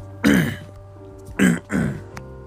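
Someone clears their throat three times: one rough, raspy burst, a short pause, then two quick clears close together.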